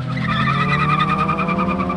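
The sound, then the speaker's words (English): Race cars skid their tires in a stadium parking lot at a legal street-racing event: a loud, unbroken engine roar with a steady, high, squealing whine running throughout. “In the parking lot of San Diego's Qualcomm Stadium, the air is thick with the smell of burning rubber.”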